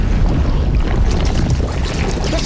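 A river of slime rushes through an old tiled underground chamber of a pneumatic transit system, a loud, continuous churning roar with no pauses.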